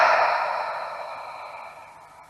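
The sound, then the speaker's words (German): A long breath exhaled through the mouth during a guided meditation: a soft, breathy rush that starts strong and fades gradually over about two seconds. “Und atme mit mir nochmal ganz kräftig ein und durch den Mund aus.”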